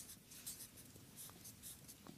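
Handwriting: scratchy strokes of writing by hand, a steady run of many short rasping bursts at a moderate level, with no talk over them.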